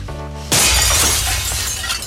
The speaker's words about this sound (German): Ein dicker Stein fliegt durch die Scheibe in die Praxis.